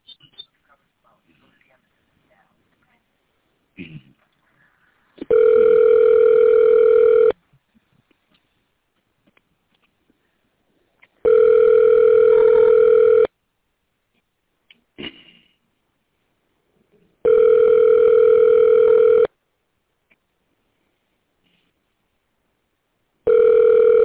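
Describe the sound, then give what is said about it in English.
Ringback tone of an outgoing telephone call to a medical office: four long, steady buzzing tones of about two seconds each, separated by silences, with the last tone cut off at the end. “Calling New York Best Medical.”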